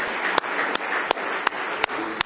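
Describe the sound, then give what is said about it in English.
Congregation clapping hands in praise during a church service: six sharp, evenly spaced unison claps land on a steady beat over a continuous rustling wash of crowd applause. “Give the Lord one more hand clap of praise if you love Him with all your heart.”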